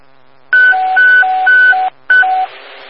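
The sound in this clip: Loud electronic alert tone for an emergency dispatch, alternating high and low beeps in a steady pattern of three pairs, a brief gap, then one more pair.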